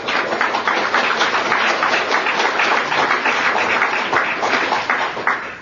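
Applause from an audience in a room, dense continuous clapping at an even level that eases slightly at the very end.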